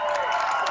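Crowd noise from spectators at a high school boys' basketball game between arch rivals on the home floor: a brief, steady wash of cheering and shouting with no clear breaks.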